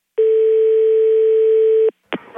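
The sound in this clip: Telephone tone on the line after the other party hangs up: one long, steady, mid-pitched tone holds for nearly two seconds and stops abruptly, then a brief burst of another sound begins.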